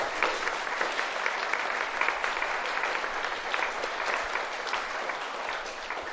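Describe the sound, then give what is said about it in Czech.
Sustained applause fills a church after a personal faith testimony, a thick, continuous patter of many people clapping at a steady, moderate volume with no voices rising above it. “Díky moc, já myslím, že můžeme zatleskat,”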